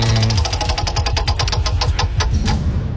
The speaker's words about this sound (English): So it's up to the wheel to decide who it's going to land on today. Shall we spin it again? Great. It's like a double-sided wheel.